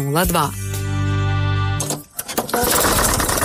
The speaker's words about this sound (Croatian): Vaš traktor stao je usred posla. Vrtna oprema ne radi kao prije.